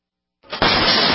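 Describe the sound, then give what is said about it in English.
An intruder kicks a door in with a single kick, a sudden harsh crash that swells quickly into a loud, dense burst of splintering noise and holds until the end. “That's the sound of your door being kicked in by an intruder with a single kick.”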